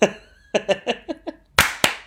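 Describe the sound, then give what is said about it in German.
A few brief voiced sounds are followed by two sharp, loud hand claps from a group of people trying to clap once together, the pair landing close together near the end. “Okay, 25, 10 klatschen wir. Macht euch bereit.”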